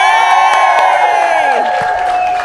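A live audience at a true crime show cheers, whoops and claps for a guest being introduced. The roar is loud and sustained, with shrill whoops over the crowd noise.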